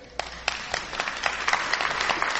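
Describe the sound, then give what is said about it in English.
Audience applause at a talk, a dense patter of many hands clapping at moderate loudness that builds slightly and continues to the end. “I'm not sure that's something worth clapping for”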